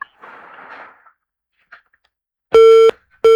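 Busy tone after a phone call is cut off: faint rustling and a brief click, then two loud, steady electronic beeps separated by a short gap.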